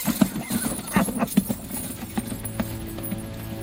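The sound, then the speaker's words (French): Galloping horses as a sound effect: many rapid, rhythmic hoofbeats thud over a steady background hum, keeping an even, driving pace throughout. “Suivez-moi, on passe le fossé au fond du vallon et on va le semer. Général Gourgaud, au galop!”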